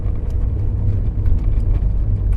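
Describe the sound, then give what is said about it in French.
A small car drives across the yellowed plains of Alberta, buffeted by gusty wind. A steady, loud, low rumble of engine and wind noise runs throughout, with no talking. “Dans les vastes plaines jaunies de l'Alberta, la petite voiture supporte mal les rafales.”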